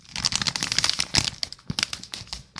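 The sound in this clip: Crinkling of a Pop Rocks candy package being handled, a continuous soft rustle of plastic wrapper with many small, sharp crackles and a few louder crumples.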